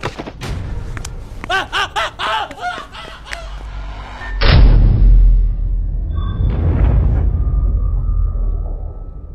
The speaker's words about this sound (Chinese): 大门砰的闭合。